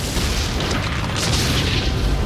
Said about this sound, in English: A fireball balloons across the ocean floor, exploding in a flash of bright white light.